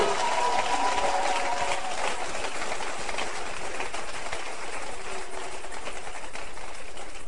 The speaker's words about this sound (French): Est-ce qu'on peut acclamer les membres du protocole?